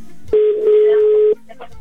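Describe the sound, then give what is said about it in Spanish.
A single ringback tone on an outgoing telephone call: one steady, mid-pitched electronic tone that holds for about a second and then stops, with faint background sound around it. “Venga, marcamos por segundo intento. Y esperemos que ese sea el bueno y que sí nos conteste. Ok. Venga, Marco. Ahí está, ya está sonando.”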